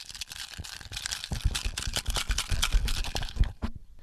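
Paper song-title slips being stirred by hand in a bowl give a continuous crinkly rustle, many dry crunching and crackling bursts without talk.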